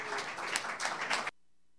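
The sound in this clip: An audience applauds to welcome a singer-songwriter, a short burst of dense, crackling clapping that cuts off abruptly into near silence.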